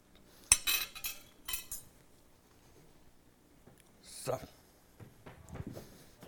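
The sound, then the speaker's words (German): Cutlery clinks and scrapes on a plate as food and a few strawberries are served, short bright clicks coming in two loose bursts separated by a quiet gap. “ich lege es einfach auf den Teller und du machst das dann selber. Leg noch ein paar Erdbeeren dazu und dann darfst du dir gerne selber nehmen.”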